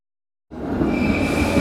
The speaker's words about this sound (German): Achtung, Bahnsteig 9. Eurocity 567, Land Tirol, nach Bregenz über Salzburg, Kufstein und Innsbruck fährt ein.